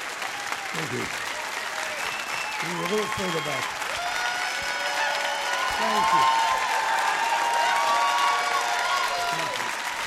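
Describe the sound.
Sustained audience applause, a standing ovation for Barney Frank at Livewire, with dense steady clapping from a crowd that swells slightly midway and stays loud to the end.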